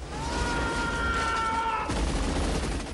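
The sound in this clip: Gunfire from a rooftop gunner in a film action scene with rockets striking a village, a dense, rapid barrage of shots over a continuous rumble.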